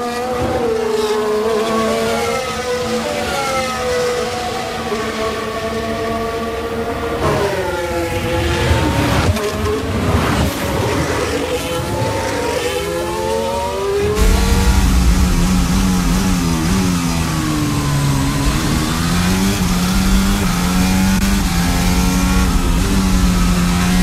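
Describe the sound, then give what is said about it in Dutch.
Formula 1 cars race at the 2022 Melbourne Grand Prix. Their shrill engine whines rise and fall with gear changes as several cars overlap, loud and continuous throughout. “Valtteri Bottas, is hij dan eindelijk voorbij aan Lance Stroll? Dat is de vraag. En die Stroll die blijft dat maar doen, hoor. Die krijgt er echt nog wel een reprimande voor, denk ik. Maar het is Valtteri uiteindelijk gelukt.”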